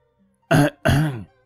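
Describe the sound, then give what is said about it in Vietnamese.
Two short, deliberate dry coughs, feigned to interrupt others. They are clipped, throaty barks close together, loud against silence, the second a little longer than the first. “làm bộ ho khan hai tiếng, cắt đứt luồng suy nghĩ của hai người”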